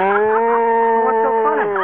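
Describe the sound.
A cow moos in one long, sustained, loud call with a steady pitch and a slight waver near the end. The cow is in a milking scene with a bucket.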